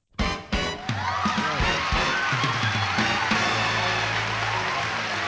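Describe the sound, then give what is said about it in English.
Intro music plays for a movie-tune quiz show. It opens with two sharp hits and then settles into a steady, full musical bed with sustained tones that holds at an even level to the end. “All right, well, prepare now while the intro plays.”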